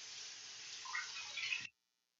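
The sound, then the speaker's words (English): Water runs as hands are washed with soap, a faint, steady hiss that carries on evenly and then cuts off abruptly. “I will wash my hands. Here, here's some soap. I think you better wash your face, too.”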